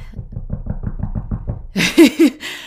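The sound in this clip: Knuckles knock on wood in a rapid, even run of dull, low taps, followed by a brief voice.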